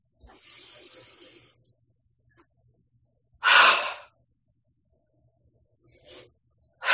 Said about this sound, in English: And then we're going to let it go. And with a long exhale toward the earth.